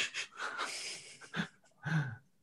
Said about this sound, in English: Right, the third category then is the post-pint gasp